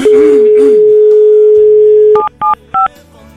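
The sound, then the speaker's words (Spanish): A telephone plays a long, steady, low dial tone while a call is being dialed. Three short dual-tone keypad beeps follow at an even pace. “Vamos a marcar de nuevo. Ahí le estamos marcando.”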